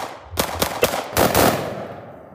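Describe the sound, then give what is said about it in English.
A pistol shot cracks, then two separate musket shots, then a dense roll of musketry as British troops and American militia open fire at Lexington and Concord. The sharp, loud reports are spaced apart before the closely packed volley. “A pistol is shot, then 2 muskets fire, and then a roll of musketry.”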